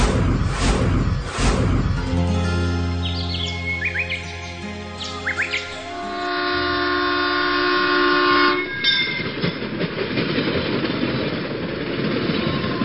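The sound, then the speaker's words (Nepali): A train whistles shrilly near a railway line in the morning, a long sustained tone of several layered pitches held for several seconds over the rumble of rail traffic, while small birds chirp now and then. “ठीक यसै बेला हिजो बिहान पनि रेलको तीखो सुशीलीले उसको निन्द्रा भ्युझाएको थियो।”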